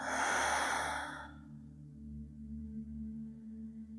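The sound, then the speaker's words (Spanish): A deep exhale through the mouth releases all the air in one long breathy rush lasting just over a second, then fades, leaving soft sustained tones humming quietly beneath. “Y por tu boca exhala soltando todo el aire.”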